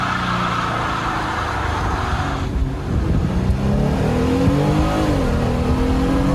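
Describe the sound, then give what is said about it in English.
Loud, continuous engine roar and tire noise from a Gladiator doing a burnout on big tires, smoke rising, the engine note climbing in the second half. “That was the Gladiator. Believe it or not, Gladiator does some wicked gnarly burnouts.”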